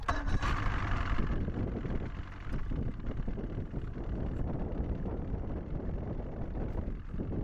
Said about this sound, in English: that's the sound of the wind blowing and the giant swells slapping the side of the boat.